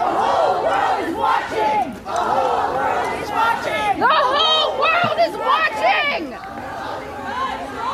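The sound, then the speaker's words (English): Abortion-rights protesters outside the US Supreme Court chant in a loud massed crowd. Shrill, strained voices carry repeated shouted phrases over a constant babble of other voices. “But there's something about that protest screech that is like a hot spike driven through the male ear.”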